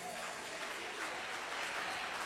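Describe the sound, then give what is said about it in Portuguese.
A church audience claps joyfully in dense, continuous applause that stays even and fairly quiet throughout, with no single voice standing out. “Maravilha, mais palma alegre para o Rei Jesus.”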